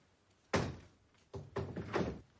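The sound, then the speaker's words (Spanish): A window being closed: a sharp, heavy thunk, then after a short pause a few more knocks and rattles as it shuts, fairly loud, with no voices. “Se dispone a cerrar la ventana.”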